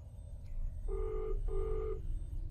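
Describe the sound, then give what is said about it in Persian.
Call-transfer tones on a telephone line: two short, steady, mid-pitched tones of equal length sound one after the other over a low background hum, faint overall. “در حال انتقال تماس.”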